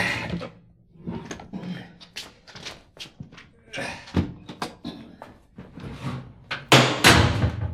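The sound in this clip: A safe is handled and shut: a series of clicks and knocks leads to a heavy, loud clunk as its door closes near the end, with voices talking in between.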